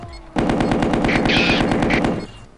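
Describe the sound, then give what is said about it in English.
Machine gun fire in a video game: one loud, continuous burst of rapid, evenly spaced shots lasts about two seconds before tailing off. “There's another one. Machine gun. Target destroyed.”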